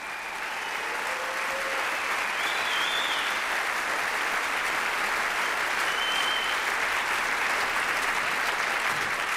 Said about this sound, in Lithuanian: Plojimai jam. Make him feel good, y'all.